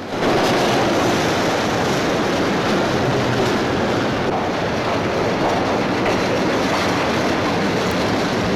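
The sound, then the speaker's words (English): A subway train thunders into a station with a loud, unbroken roar that holds steady throughout. Dense rattling and rumbling fill the sound, with no voices. “The subway train thunders into a station.”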